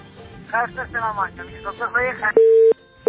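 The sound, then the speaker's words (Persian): Disconnection tone from a dropped call on a radio phone-in show: a loud steady beep and the start of a second cut in right after a stretch of talking. “تماس قطع شو بل تماس اخلو”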